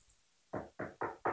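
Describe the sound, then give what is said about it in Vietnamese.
Four firm knocks on a door, evenly spaced and fairly loud. Each is a short, dull thud on its own, with no voices. “Theo tiếng gõ cửa, Thiên Thủy”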